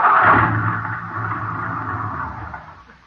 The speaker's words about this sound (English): Well, what do you know? We ran out of gas.